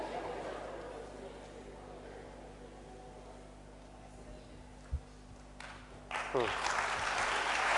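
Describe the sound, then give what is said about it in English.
Audience clapping, faint and continuous, over a steady low hum, with the sound shifting and growing slightly louder near the end. “I don't know why you are clapping.”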